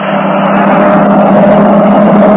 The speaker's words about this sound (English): there's a car coming along the road. When it goes by, we might as well start after those trucks again.